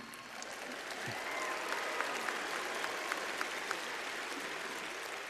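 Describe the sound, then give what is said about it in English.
Women at a graduation ceremony clap in sustained applause, a dense wash of many hands with a few sharper claps standing out, steady and moderately loud throughout. “those are the women clapping”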